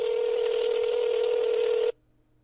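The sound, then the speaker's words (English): A steady telephone tone sounds as a number is called. It stays level and unbroken for about two seconds, then cuts off abruptly into near silence. “Let's see what happens when we call her number.”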